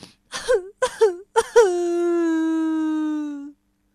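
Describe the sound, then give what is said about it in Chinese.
Performed crying of a storybook character, voiced by a narrator: three short sobbing wails followed by one long, steady, drawn-out moaning wail that ends abruptly, heard alone. “他说完，又哭了起来。”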